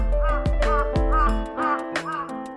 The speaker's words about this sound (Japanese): カラスはいつも独りぼっち。一人でカーカー鳴いてるよ。